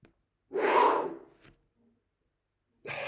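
A big, deep breath drawn in by a trombonist: one loud, rushing inhale lasting under a second, then near silence before another breath begins at the end.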